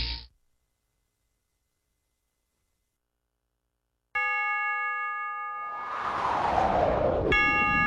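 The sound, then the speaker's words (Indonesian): Clock chime marking three in the afternoon: after a short noise and long silence, a bright bell-like tone rings out and sustains under a swelling hiss. A second strike sounds near the end. “Setiap kali engkau mendengar bunyi jam yang menunjukkan pukul 3 sore”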